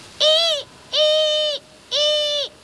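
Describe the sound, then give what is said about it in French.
Barn owl calling at night over moonlit forest and countryside: three loud, drawn-out harmonic hoots of even length and steady pitch, evenly spaced. “On dirait des ululements. Une bestiole qui ulule la nuit dans les airs sans que je puisse entendre ses battements d'ailes, c'est forcément une chouette effraie.”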